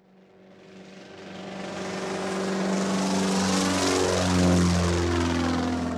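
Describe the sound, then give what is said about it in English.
A propeller airplane drones as it flies, its buzzing engine hum swelling steadily from faint to loud and then holding strong, with shifting tonal bands and no voices. “Airplane. Say it again. Airplane. 飛行機に乗って飛ぼう。Fly the plane.”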